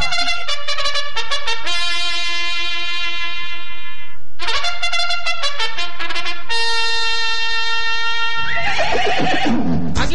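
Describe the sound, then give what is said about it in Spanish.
Mares whinnying before the last horse race of the year: repeated loud, high neighs with quavering, harmonic calls that follow one another with short breaks, and no talk over them. “Estos son las yeguas que van a participar. Las yeguas que van a participar en la última carrera de este año.”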